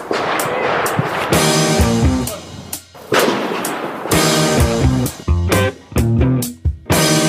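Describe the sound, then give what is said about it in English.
Rifle gunfire at the Carter's Country local rifle range on New Year's Day: several loud, sharp reports at irregular intervals, each a broad crack, with a steady tonal ringing between shots. “Checking in at the Carter's Country local rifle range. Sounds of freedom.”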